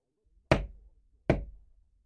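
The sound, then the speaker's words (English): Three slow knocks sound on a house door at midnight. Each is a sharp, loud rap with a quick decay, separated by near silence, and the last one lands right at the end. “At midnight, there was a knock at the door of my house.”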